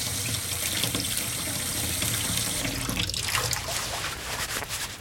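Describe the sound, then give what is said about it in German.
Running tap water as a leaf used instead of spinach is washed under the faucet: a steady, hissing stream that turns splashier and more uneven partway through as the leaf meets the flow. “Moment, ich wasche mal eins ab und teste.”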